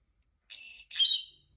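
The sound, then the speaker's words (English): A pet bird whistles two high, clear phrases: a steady first note, then a brief pause and a louder, brighter second whistle. Nothing else is heard. “Who's a pretty, pretty bird?”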